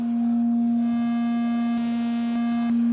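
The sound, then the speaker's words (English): A sine tone from a Buchla Music Easel synthesizer oscillator holds one steady, pure, low-pitched hum. Faint higher overtones creep in after the first second. No talk. “So I can start with the sine tone”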